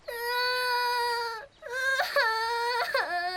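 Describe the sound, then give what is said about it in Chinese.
A child cries alone by the seaside, a loud, high, sustained wail that breaks off briefly, then resumes as shorter sobbing cries with sudden jumps in pitch. “哇，怎么又哭了？别哭了。”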